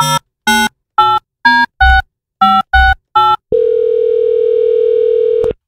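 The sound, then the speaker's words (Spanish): Eight touch-tone keypad beeps dial a telephone number for a radio call-in ticket giveaway. A long, steady ringing tone follows, and a click ends it. “Vamos a marcar, suerte.”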